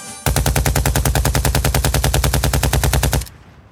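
Automatic gunfire rings out in one long, loud, sustained burst of many rapid, evenly spaced shots that cuts off abruptly, leaving a brief fading tail.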